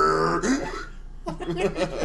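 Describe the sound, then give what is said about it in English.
A man burps with a low, rough belch after drinking Red Bull mixed with Mountain Dew. A short pause follows, then a second throaty, gurgling burst. “Now he's like, got these horrible hiccups and burps.”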